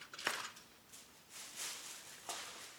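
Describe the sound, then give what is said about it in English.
Tin foil is pulled off a plastic bowl holding Thanksgiving dinner, giving a few faint, airy crinkles and rustles. Short bright bursts are separated by brief quiet gaps. “It's a plastic bowl with tin foil. I'm unveiling the bowl.”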